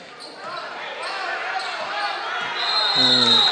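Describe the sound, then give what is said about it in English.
Basketball dribbling during a high school game between Holly Pond and Decatur Heritage, heard under steady crowd noise and a man talking throughout, with the noise swelling slightly toward the end. “You can't just dribble the basketball. You've got to pass the basketball.”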